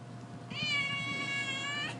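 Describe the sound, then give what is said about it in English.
A cat's single long meow, drawn out and high-pitched with a bright, clear tone, sounds loudly over a faint steady low hum. No one speaks during it. “Do you need some kitty crunchy num nums?”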